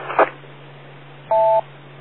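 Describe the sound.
A telephone DTMF dial tone is sent over a radio repeater: one short, steady two-note beep, preceded by a brief soft thump, over a constant low hum and band-limited hiss.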